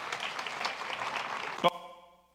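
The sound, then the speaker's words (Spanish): Brief applause from an audience for a seminarian, soft, even clapping for under two seconds that stops abruptly, followed by a short tonal ring fading out. “Venga, un aplauso para el seminarista flaco.”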